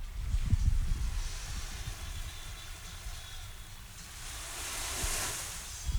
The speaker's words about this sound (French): Je sais pas si on entend, c'est le bruit de vagues.